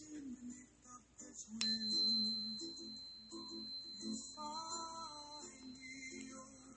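A quartz crystal is struck once and rings with a clear, high sustained tone that slowly fades over about four seconds, over a soft background of other tones.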